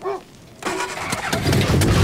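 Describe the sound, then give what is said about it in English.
A battered car's engine starts up after a brief quiet moment, catching with a sudden rough burst and then running loud and steady, with the noise building slightly toward the end. “Doors swinging shut, the battered car starts up.”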